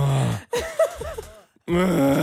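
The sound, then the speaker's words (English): A man imitates his own moaning and groaning in the shower, producing a few deep, guttural groans with wavering pitch, separated by short pauses and ending on a long sustained moan. “A lot of moaning and groaning in the shower. I wasn't even really making the decision to do it, but just unconsciously, I'm just standing there under the water going,”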